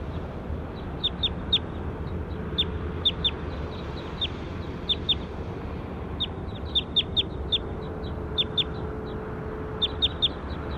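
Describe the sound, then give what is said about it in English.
A bird gives short, high chirps, repeated many times in irregular clusters over a steady low background rumble. “Start recording bird two again.”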